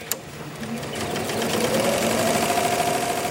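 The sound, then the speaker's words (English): An embroidery machine runs at San Diego Aircraft Interiors, an aircraft seat cover factory in Chula Vista, California. It makes a steady, rapid mechanical rattle that grows slightly louder, with a faint tone rising gently above it. “This is our embroidery machine here.”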